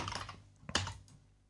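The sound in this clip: Typing on a computer keyboard while entering an email address: a few faint, quick keystroke clicks, with a slightly louder cluster near the middle.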